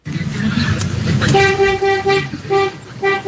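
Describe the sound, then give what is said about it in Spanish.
A thick-toned horn of a two-axle truck honking three times, one long blast followed by two shorter ones, over a low engine rumble. “Este pito es más grueso. Ese sí, es como de camión, ¿no? Como de camión, a ver. Es un doble troque.”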